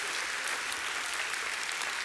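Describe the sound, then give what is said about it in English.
Audience applause at a church service: a continuous, dense wash of clapping, fairly soft and even throughout, with no single claps standing out. “Let's make some noise for all those watching online.”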